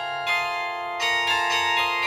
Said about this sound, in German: Dann führt eine Leitung von dem Glockenspielcomputer zu den einzelnen Glocken und dort werden dann die Hämmer an die Glocken entsprechend geschlagen.